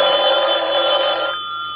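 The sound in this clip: A telephone bell rings in one loud, continuous metallic trill that stops abruptly near the end, leaving a thin lingering tone; no one speaks.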